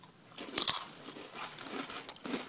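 Biting into a thick corn chip gives a sharp, crisp crunch, then softer irregular crunching as it is chewed, fairly faint, with no talk.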